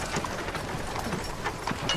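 Hooves of a donkey pulling a cart clip-clop in a quick, steady rhythm, soft against a bed of rough, noisy background sound.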